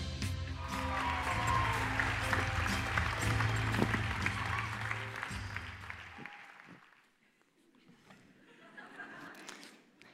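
An audience applauds to welcome a guest preacher at a church service: a dense, loud clatter of clapping that dies away after about six seconds, leaving quieter sounds.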